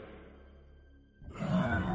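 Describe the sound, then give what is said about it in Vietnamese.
A monstrous creature roars in a cave: a low, rumbling drone gives way to a loud, harsh, broad roar that swells and holds to the end. “Bỗng nhiên nó gầm lên một tiếng.”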